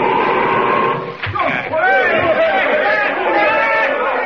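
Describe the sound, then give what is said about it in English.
A crowd chants in a temple deep in secret ice caves, many overlapping voices forming a dense, steady murmur with sustained tones throughout. “They're still there. I can hear them chanting.”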